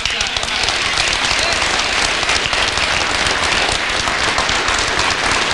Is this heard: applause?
yes